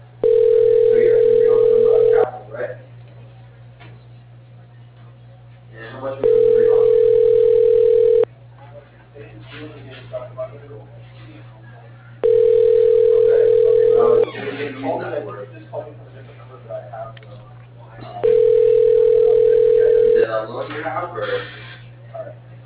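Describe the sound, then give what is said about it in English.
Four steady, mid-pitched ringing tones of about two seconds each play as an office phone extension is dialed. A constant low hum runs underneath, and other busy sound fills the gaps between tones. “Extension 1, 11. Dialing.”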